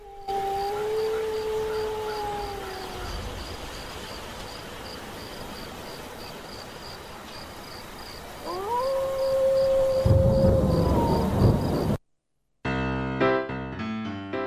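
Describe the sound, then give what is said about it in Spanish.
Wolves howl in a radio station night-time jingle: two long, clear howls with steady hiss between them, the first sliding gently down and the second rising then holding. A brief burst of music follows after a short gap. “¿qué eran esos aullidos? No sé, es un separador de cuando íbamos de noche, por lo menos ya anocheció. Pero bueno, los lobos como que quedaron ahí en el tiempo.”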